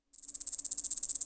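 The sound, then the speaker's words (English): A male cicada calls to attract a mate. It starts abruptly as a high, rapid, evenly pulsed buzz with many quick pulses in a steady rhythm, moderately quiet. “That's the sound of a male cicada trying to attract a mate.”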